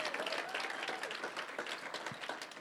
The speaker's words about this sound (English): Can we give them a hand this morning?